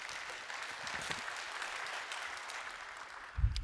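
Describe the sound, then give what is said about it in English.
Applause from a church audience welcoming viewers who join online: steady, dense clapping that runs the whole time, with a brief louder thump near the end. “if you guys would, put your hands together. Welcome in our online family here today.”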